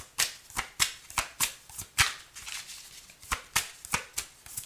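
Tarot cards being shuffled: a quick series of many crisp, papery riffles and snaps in a steady, even rhythm, with no talking.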